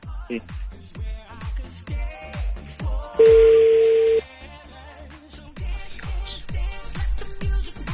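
Ringback tone of a call to a cellphone: a loud steady beep sounds over rhythmic music, and a fainter second beep follows a few seconds later.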